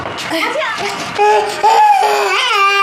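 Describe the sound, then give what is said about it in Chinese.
A baby cries in loud, drawn-out wails that rise and fall in pitch, with a few sobbing breaths between the longer cries. “哎呀，不哭了，不哭了，不哭了！”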